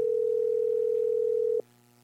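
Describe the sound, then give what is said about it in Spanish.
A telephone call rings out unanswered: one loud, steady electronic tone holds for about a second and a half, then cuts off, leaving a faint low hum. “Está timbrando Franco Navarro, tampoco. No quiere contestar”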